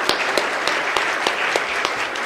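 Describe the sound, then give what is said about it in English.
Hearty audience applause at a colloquium for the speakers and panel respondents, a dense, even clatter of many hands with a few sharper claps standing out at irregular moments. “Would you give the hand of applause to those our speakers and our reactors again?”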